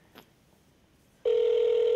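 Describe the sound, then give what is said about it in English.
Ringback tone of an outgoing phone call heard over speakerphone, a steady buzzy mid-pitched tone that cuts in abruptly after a quiet second and holds loud and unbroken to the end. “Oh, do I have it on speaker? Here it goes. Don't you kind of get the butterflies when phones ring?”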